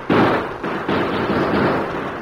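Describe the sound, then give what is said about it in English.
Gunfire in a shootout with outlaws who are told to drop their guns: a loud, rapid run of overlapping bangs, with several sharp blasts merging into a continuous, rough crackle throughout. “Never mind. Keep shooting.”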